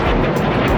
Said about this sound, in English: Rockets and drones fired at Israel from Lebanon by the armed group Hezbollah.